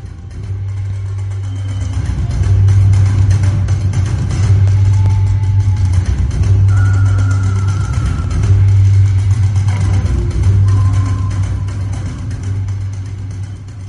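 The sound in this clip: Car engine idling as the car stops, a steady low hum with slight swells in pitch and loudness that eases off a little toward the end, with no talking.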